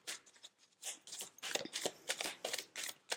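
Goddess guidance oracle cards are shuffled in many quick, crisp bursts of papery flicking, with short pauses between the runs.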